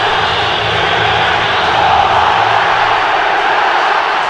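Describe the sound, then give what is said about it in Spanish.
A dense crowd roar fills a large football stadium in Mexico City at the start of a match, a steady, loud wash of many voices that holds at an even level without clear breaks or individual shouts. “donde Pumas jugará de azul y donde en verdad es increíble el ambiente que se escucha en este estadio.”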